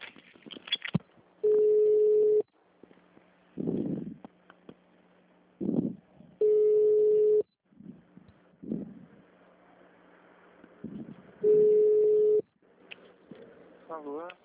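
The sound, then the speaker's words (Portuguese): After a dropped phone call, a telephone line gives three long, steady, mid-pitched tones spaced several seconds apart, with people talking in the gaps. “Desculpa, caiu a ligação.”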